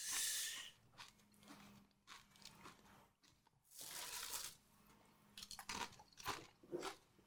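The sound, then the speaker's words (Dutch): Someone eats and chews food, producing faint, irregular crunchy bites and soft mouth noises in many uneven bursts, with no talking. “Voor de mensen die niet tegen eetgeluiden kunnen, excuses thuis.”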